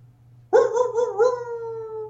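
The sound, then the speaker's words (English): A single long howl starts abruptly and holds a steady, slightly wavering tone before slowly trailing off over a faint low hum. “Get that howl in there. I love that.”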